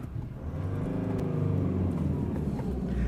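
An automatic car drives off, its engine giving a steady, continuous low rumble at a fairly even level throughout.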